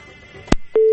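A telephone tone follows a disconnected call: a loud click-like burst, a short blip, then a steady, loud, mid-pitched tone that holds to the end.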